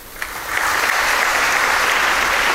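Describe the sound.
Applause at a presidential medal ceremony for an Indian Coast Guard officer receiving the Ati Vishisht Seva Medal: dense, loud clapping swells in after a brief quiet start, then holds steady without voices.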